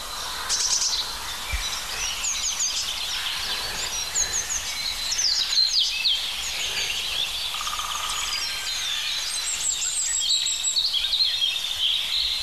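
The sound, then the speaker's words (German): A European robin sings throughout in high, thin, trickling warbles and chirps over a faint steady hiss, with a brief lower, harsher call in the middle. No voices are heard. “dieses schöne plätschernde Rotkehlchen und diese rauen Rufe. Eigentlich doch Krähe, oder?”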